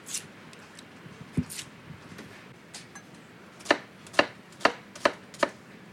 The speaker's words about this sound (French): On va donc couper, euh, émincer grossièrement l'oignon. Hein. on n'a pas besoin de le couper très fin.